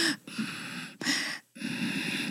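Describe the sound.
Voice imitating a child's prolonged, wheezing exhalation, as heard with bronchiolitis: a few drawn-out, breathy, strained outward breaths with a thin whistling tone running through them, separated by short gaps.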